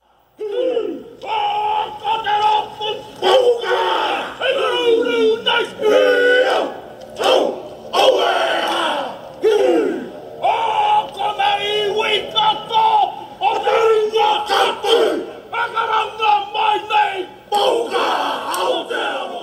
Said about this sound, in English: That was the sound of the haka tribute performed by a biker gang in New Zealand.